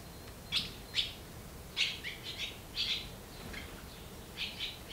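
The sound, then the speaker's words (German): High, thin chirps from hungry barn swallow nestlings in a nest in an old horse stable, coming in short bright bursts of rapid calls with brief quiet gaps between them over a faint low hiss. “Drei kleine Schwalben sind hier geschlüpft und haben Riesenhunger.”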